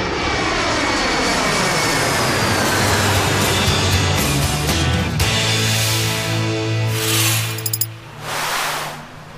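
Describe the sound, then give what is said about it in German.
An airplane comes in to land near a beach, its engine giving a loud, constant roar with whining tones that slide down in pitch, then easing off near the end amid a few sharp clicks and gusts. “So, Achtung, ich glaube, wir landen gleich, ne?”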